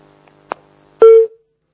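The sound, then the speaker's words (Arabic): A phone call cutting off: a soft click, then about half a second later a single short, loud electronic tone that fades quickly into silence. “انقطع الاتصال على صوت اتصال، نعود الى اتصال مره ثانيه.”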